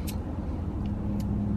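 Car road noise heard while driving through a traffic jam: a steady low rumble with a faint hum and a few brief soft clicks, and no talk.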